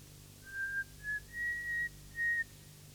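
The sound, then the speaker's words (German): A woman whistles a slow tune on a lonely train platform, four soft, clear, sustained notes at a high, nearly steady pitch with short gaps between them, heard alone against a quiet low hum. “beginnt zu pfeifen, wie ein einsames Mädchen aus Langeweile vor sich hin pfeift.”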